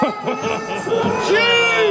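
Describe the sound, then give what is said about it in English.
A stadium crowd reacts during the national anthem before a game. Babble, chuckles and scattered cheers mix with a singing voice that holds long, steady notes in the second half. “You can hear the crowd live reacting to it. And then the crowd sang the rest of the way with him.”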